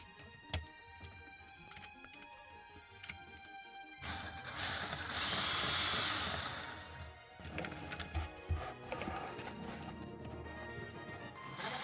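A side motor runs unevenly and out of balance, giving a steady tonal hum broken by irregular knocks and clatter. A louder rushing burst swells in the middle before settling back.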